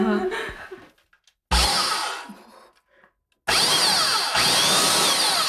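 Loud power sander from a community tool library in Dawson City, Yukon: quieter handling and rubbing noises first, then two sustained roaring runs of the motor, the second longer, with no talk over them.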